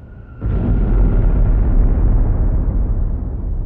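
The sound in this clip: A bomb blast that throws bricks from nearby buildings: one sudden heavy boom swells into a loud, deep, rumbling roar that holds for several seconds and then fades slowly.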